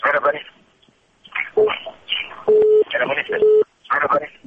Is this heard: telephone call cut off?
yes